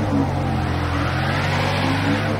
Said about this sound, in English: In a parking lot, a truck's tires spin in a snowbank.